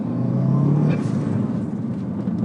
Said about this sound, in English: Turbo noises.